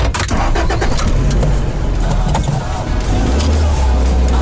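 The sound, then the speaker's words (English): Skoda car driving smoothly down a straight road beside a river, heard as loud, steady engine and road rumble that holds even and unbroken from start to finish. “here we go on a little journey. Oh, I'm liking this drive. Very smooth. I might not be able to give this yoke back at all. So I'm driving down a very straight road.”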